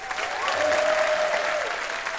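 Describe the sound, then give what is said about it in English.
Audience applause for a guest at a live trivia game show, a steady, dense wash of clapping that holds at an even level for a couple of seconds. “What a round of applause for Piper Kerman.”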